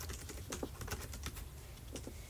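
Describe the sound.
Quick typing on a computer keyboard while someone writes out a to-do list: a steady stream of many sharp, clicky keystrokes at an even pace, with no talking.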